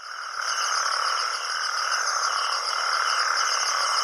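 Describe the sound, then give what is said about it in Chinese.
Male natterjack toads give mating calls at night at rain-formed pools after heavy rain: a dense, unbroken chorus of loud, buzzing, rattling trills that holds steady throughout. “这是雄性黄条背蟾蜍求偶的叫声。”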